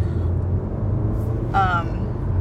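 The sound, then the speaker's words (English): Road traffic noise heard from inside a moving car: a steady low rumble and hiss of tyres and engine continue throughout with no distinct events. “sorry, some traffic. I told y'all I was driving.”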